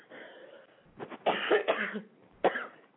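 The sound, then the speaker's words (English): Coughing from a tickle in the throat: a cluster of sharp, dry coughs in quick succession, then a single louder cough after a short pause. “excuse me. I've got a tickle in my throat.”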